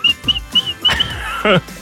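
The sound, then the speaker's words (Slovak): Human whistling: several short, high-pitched whistled notes in a broken, uneven rhythm, with some lower sounds between them. “To bol môj piskot.”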